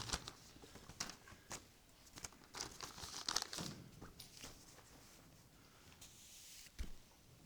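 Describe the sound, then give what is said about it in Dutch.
A piece of paper is handled and unfolded, giving many soft crinkles and rustles with a few sharper crackles scattered among them. The sounds are faint and irregular, with no talking over them. “Ik heb een papiertje meegenomen.”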